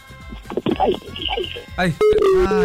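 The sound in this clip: Telephone hang-up tone: a steady mid-pitched beep cuts in abruptly after brief excited talk and holds to the end.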